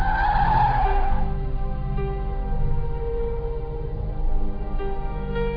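Car tires squeal in a skid for about a second as the car comes to a stop, a loud high screech that gives way to the steady low hum of the engine idling.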